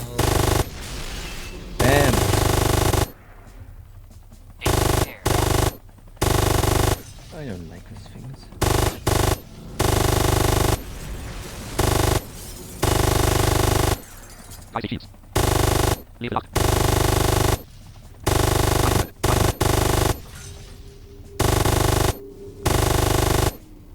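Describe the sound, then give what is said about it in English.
Video game gunfire as enemies shoot at the player's base: loud bursts of rapid automatic fire that start and stop abruptly, separated by short gaps, with a voice speaking now and then. “they're shooting on your base, and this is really not cool.”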